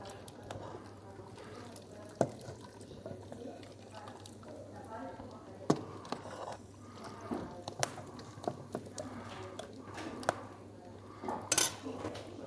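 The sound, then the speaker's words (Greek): Dishes and cutlery clatter as a meal of goat, salad, and other dishes is served, with scattered sharp clinks and scrapes under steady talk. “Το φαγητό μας είναι έτοιμο και πάμε να σερβίρουμε.”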